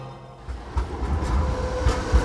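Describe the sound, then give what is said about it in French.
Railway station in Frankfurt: a low, steady train rumble fills the scene, broken by a few dull knocks and clacks of rolling stock. No voices are heard. “là, on sort de la gare de Francfort”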